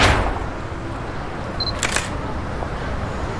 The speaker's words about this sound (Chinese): 你好，我给你拍了一张照片，我是摄影家协会的。